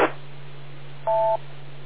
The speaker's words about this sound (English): we have the beep tones going through there